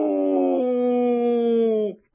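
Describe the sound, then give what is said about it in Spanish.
A voice imitates a wolf howl: one long, sustained, steady-pitched vocal cry with rich overtones, held loud for nearly two seconds before cutting off abruptly. “Ya os dije que ibais a aullar como lobos y como lobetas.”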